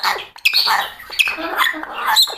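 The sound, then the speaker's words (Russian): Chirping calls from a pet bird named Arkasha: many short, shrill squeaks and trills in quick succession, uneven in rhythm, with a voice speaking softly at times. “Ой, ты мой хороший, хорошая птичка, птичка. Аркаша, птичка.”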